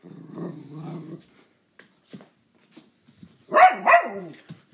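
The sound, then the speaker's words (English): A dog barks excitedly at another dog. A low, growly grumble is followed by quiet with faint sniffs, then two loud, sharp barks close together. “That's my dog barking very crazily.”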